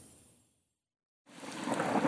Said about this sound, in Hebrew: יש! גם היום יורד גשם.